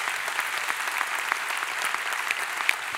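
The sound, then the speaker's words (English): Audience applause welcoming a church's founding pastor, a steady, even wash of many hands clapping that holds at a moderate level throughout. “So would you put your hands together and welcome him.”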